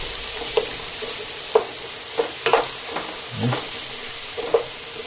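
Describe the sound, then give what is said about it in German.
Cut bell peppers frying in oil in a pan give a steady soft sizzle, broken by several scattered clicks and scrapes as they are stirred. “Und tue auf die Ecke jetzt die Paprika da rein, die ich geschnitten habe. Und lasse das Ganze jetzt mit angehen.”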